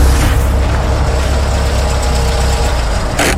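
A car engine idles while parking, giving a steady low rumble with a slight rough pulse throughout and a brief louder burst near the end. No voices are heard.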